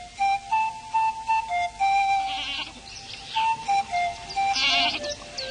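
Goats bleating as a few are driven across a farm field, with repeated nasal, wavering bleats in uneven bursts, some overlapping, and no voices.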